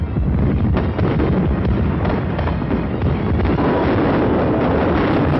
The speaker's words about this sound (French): Là, le beau feu d'artifice à Cannes en 1949